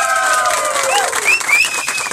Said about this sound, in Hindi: इसीलिए हम आपके लिए जोरदार तालियां बजाना चाहते हैं